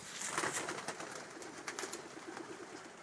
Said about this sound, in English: I'm just at a piece of my dog walk where we're passing someone who's got a coop of pigeons. And you might be able to hear them.